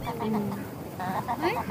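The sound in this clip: Ducks quack and call together. A busy stream of harsh, nasal calls overlaps without pause over a rough, steady background.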